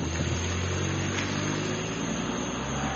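A car engine runs as the car is put into drive, producing a steady, low, continuous hum that holds at an even, fairly quiet level throughout.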